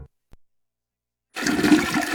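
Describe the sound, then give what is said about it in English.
Toilet flush from a toilet that isn't flushing properly: after near silence broken by a tiny click, a loud, steady rush of water starts and keeps roaring to the end. “Dig-nabbit, the flushing ain't a flushing.”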